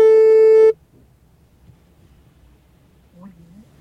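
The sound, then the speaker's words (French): A single steady electronic telephone tone sounds as a call is placed to police emergency services. The tone lasts under a second and then cuts off into near silence. “Alors on va essayer d'appeler.”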